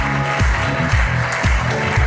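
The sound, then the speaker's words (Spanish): Audience applause at a live comedy show as a prize-winning contestant is called back to the stage, dense clapping blended with music carrying a steady thumping beat. “Venga, pues aplauso para Raquel.”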